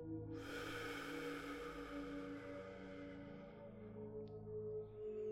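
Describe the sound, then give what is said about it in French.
A long, breathy rush of air during a guided meditation, starting suddenly and fading slowly over a few seconds. It sits faintly over a steady, humming musical drone. “Inspirez de nouveau. Puis expirez bruyamment.”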